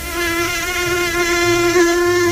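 A mosquito's whine: a thin, steady, high-pitched buzz that holds at an even level for the whole stretch, with no other sounds.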